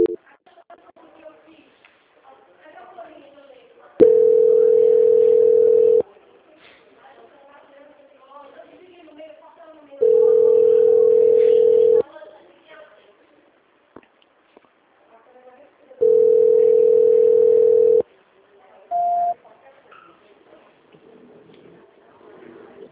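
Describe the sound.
Telephone line tones sound while a call is transferred: three long, steady, mid-pitched tones of about two seconds each, loud and evenly spaced, with quieter talk between them, then one short, higher beep near the end.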